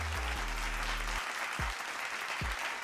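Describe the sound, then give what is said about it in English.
Applause from an audience honouring firefighters: dense, steady clapping that fills the whole clip at an even level, with a low droning tone under the first second and two short low thuds later on. “So I'm going to give y'all one more round of applause for all the firefighters”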